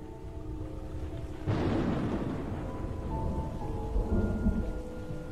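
Steady rain with thunder: a constant hiss of falling rain, then a deep rumble of thunder rolling in partway through and lingering beneath the downpour.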